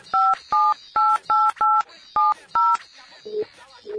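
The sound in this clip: A telephone number being dialed on a keypad, seven crisp two-tone beeps in a quick uneven sequence, clear and fairly loud, followed by a few fainter tones as the call connects.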